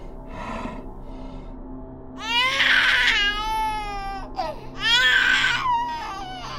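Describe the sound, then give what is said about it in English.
A creature gives a baby-like cry from its mouth as two loud, wailing, tonal bursts. The wails are separated by a short pause, and a fainter, brief sound comes before them. “Then I watched as the sound of a baby cry came from the creature's mouth.”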